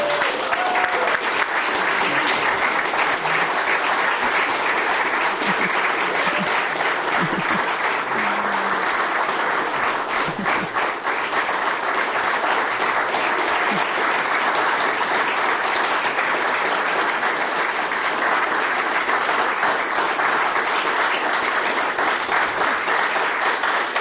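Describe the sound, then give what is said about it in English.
An audience applauding a panel at a live public event, the clapping steady and dense for the whole stretch, with no break and only faint voices beneath. “And so I'd like for the audience to give a big hand to our terrific panel.”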